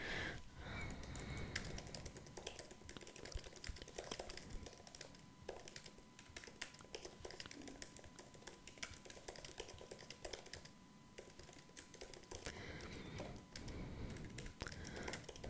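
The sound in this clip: Faint, steady clatter of computer keyboard keys as a question is typed to ChatGPT, continuous rapid keystrokes with brief uneven pauses.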